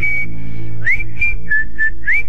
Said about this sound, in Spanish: Silbar las canciones silbadas.